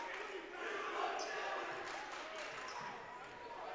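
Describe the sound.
A basketball is dribbled during a game, giving a few faint thuds under a steady crowd murmur while a commentator talks over the action.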